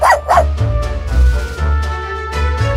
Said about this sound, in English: You a lovely dog. Where did you come from?